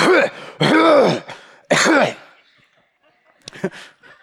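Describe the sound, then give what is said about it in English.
A man clearing his throat and grunting in a few rough, voiced bursts, followed after a pause by a short, sharp cough. “So I'm coughing and grunting and doing that whole thing.”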